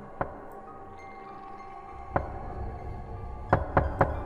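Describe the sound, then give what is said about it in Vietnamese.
Faint knocks on a hospital room door: a few soft, sparse raps over a quiet hum, the last three coming in quick succession. “Tiếng gõ cửa vẫn vang lên ở bên tai không dứt, lượn lờ trong hành lang của bệnh viện.”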